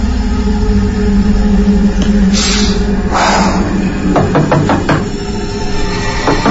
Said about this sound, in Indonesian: Aku coba ketuk kamar mandi itu untuk memperingatkan kakak sepupuku itu agar cepat keluar.